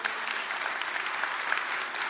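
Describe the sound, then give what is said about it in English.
Audience applause at a church gathering, thanking group leaders and hosts. Dense, steady clapping fills the whole clip at an even level, with no distinct voices. “Can we give them a big round of applause right now? Can we just thank them?”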